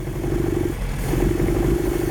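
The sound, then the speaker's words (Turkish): A car engine runs roughly with one of its cylinders misfiring: a steady, uneven low chugging with a lumpy, stumbling rhythm that dips briefly midway, then picks back up. The sound is continuous and moderately loud, with no talk. “Çalışıyor ama iyi görünmüyor. Yani güzel çalışan aracımız. Koşmaya pek de hazır değil. Sorun burada. Dördüncü silindir ateşlemiyor.”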